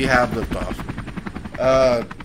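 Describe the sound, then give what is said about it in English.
A man voices a helicopter imitation, a droning vocal tone breaking into rapid rhythmic chopping pulses, then another sustained droning stretch before trailing off. “What's a penis helicopter? It's when you stand there and wiggle it around. There's actually audio of him doing the penis helicopter. Here it is.”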